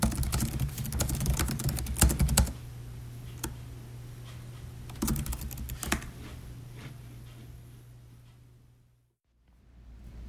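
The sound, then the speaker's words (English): Hard typing on a work laptop keyboard comes in clattering bursts of rapid key strikes, dense at first, then sparser with pauses, over a steady low hum that cuts out near the end. “Currently, I'm smashing my work laptop keyboard in an attempt to feel like I'm actually doing work”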